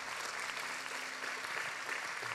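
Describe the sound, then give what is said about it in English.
Congregation hand clapping in praise during a church service, a faint, even, continuous patter of many hands with no pauses. “let's give Jesus a great hand clap of praise today.”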